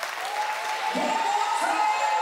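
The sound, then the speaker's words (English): An audience claps at a church service, a steady wash of applause running under a voice that speaks throughout. “Come on, one more time. Why do I want you to get excited, clap for it?”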